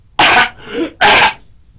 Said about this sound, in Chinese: 老方不由得嗓子眼一刺呀，咳嗽了两声。